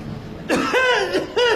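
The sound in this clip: An elderly man coughing: a few harsh, voiced coughs in quick succession, loud and with no talk over them.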